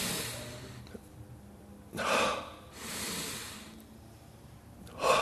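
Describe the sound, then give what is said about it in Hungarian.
Forceful breathing in a breathing exercise of short exhales and long, strong inhales, heard as three breathy rushes: one long and sustained, one sharp gasp at the end, with quiet between. “Rövid kilégzés, hosszú belégzés, erőteljes belégzés.”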